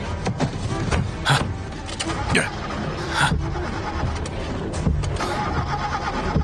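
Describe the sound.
A car engine fails to start: a loud, grinding starter cranks in repeated bursts without catching, interspersed with sharp clicks and mechanical rattling.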